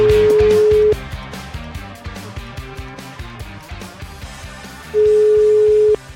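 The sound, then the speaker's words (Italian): A telephone call ringing out to an official: two steady, low ringing tones of about a second each, one at the start and one at the end, about four seconds apart, with busier, quieter sound beneath in the gap. “Facciamo una telefonatina.”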